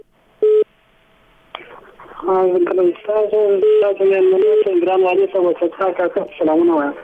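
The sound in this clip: A listener's telephone call connects: one short, loud electronic tone, a quiet pause, then a click, followed by a person talking at length over the thin, narrow-sounding phone line.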